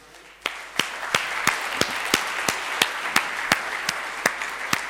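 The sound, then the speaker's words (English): An audience at a talk applauds to welcome two speakers to the stage, a steady wash of clapping punctuated by evenly spaced, sharp rhythmic claps. “Please give a big hand to Lars and Cornelius.”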